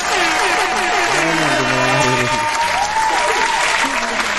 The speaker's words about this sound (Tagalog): Isang malupit na palakpakan para kay Kiyo.